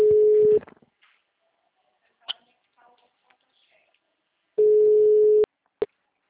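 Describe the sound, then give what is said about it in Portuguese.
A telephone rings on an outgoing call, heard as two long, steady mid-pitched tones separated by a few seconds of near silence, with faint clicks in the gap and a short blip at the end. “Atende, mulher, atende esse telefone”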